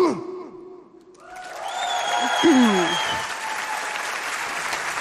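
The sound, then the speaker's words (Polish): Audience applause at a music awards gala rises after a brief musical ending and continues as dense, steady clapping, with a short voice heard over it. “Wielkie brawa.”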